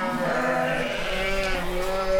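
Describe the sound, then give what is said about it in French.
Dairy ewes bleating, many overlapping wavering calls merging into a steady, dense chorus that never pauses. “Les brebis laitières sont là.”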